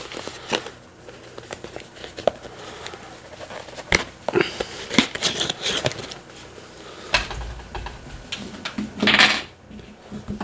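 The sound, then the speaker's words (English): Packing tape on a package is sliced open in two places, giving faint scratchy rasps, soft rustles and scattered sharp clicks, with one longer tearing scrape near the end. “Cut this open. Two pieces of tape.”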